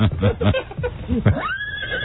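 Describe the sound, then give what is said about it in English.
A horse named Nestle whinnies with a high, wavering call that climbs in pitch at the end. Some brief voiced sound comes just before it. “Now meet your new horse, Nestle. Nestle. He's quick.”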